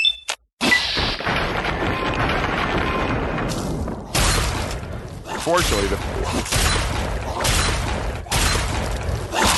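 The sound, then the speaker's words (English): Frag mines exploding in a video game: several heavy, booming blasts with sharp crashing edges over dense, continuous in-game noise. “the non-glowing one apparently was the one who set off the frag mines, because you heard him go off”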